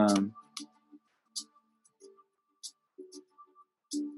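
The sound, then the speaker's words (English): Computer mouse clicking in five sharp, light clicks spaced irregularly, with a brief voice at the start and soft murmurs between the clicks. “Let me see if I can click on any of these.”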